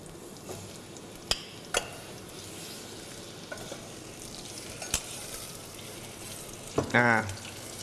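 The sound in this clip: Garlic and shallots fry in a pan as sugar is added, a steady faint sizzle broken by a few sharp utensil clicks and a brief scraping stir near the end.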